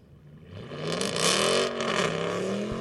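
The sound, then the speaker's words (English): A straight-piped Dodge Charger drives off at a car meet, its loud, raspy exhaust growing from a low rumble into a sustained roar that swells and wavers as the engine revs, with no talking. “And now we have a straight piped Charger. About to leave.”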